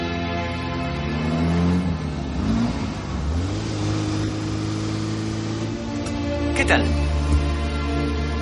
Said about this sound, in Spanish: En la calle conduciendo el flamante Ferrari rojo descapotable.